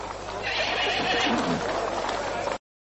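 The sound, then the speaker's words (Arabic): A horse whinnies loudly in the battle of Hunayn as Malik ibn Awf's mount refuses to move forward, one sustained, strained neigh running unbroken for about two and a half seconds before cutting off. “يا للآلهة، ما لهذا الحصان يأبى أن يتقدم؟”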